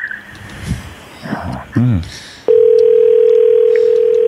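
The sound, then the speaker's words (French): Telephone call being placed: after a few seconds of brief voices, a loud, steady line tone cuts in midway and holds unbroken, at a constant pitch, to the end. “OK, fait qu'on appelle PO.”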